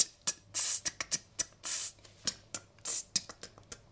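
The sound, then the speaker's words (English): A voice beatboxing a T sound, many crisp hissy tongue bursts with three longer breathy hisses mixed in, in a quick uneven rhythm, with no other sound. “If we start with the sound T, T, it's like the T sound.”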